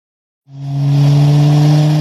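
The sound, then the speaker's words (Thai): A car engine roars in suddenly after a moment of silence, driven fast, then holds a loud, steady, mid-pitched drone with a rough mechanical edge and no voices over it. “นี่คุณขับรถอะไรเร็วขนาดนั้นน่ะ”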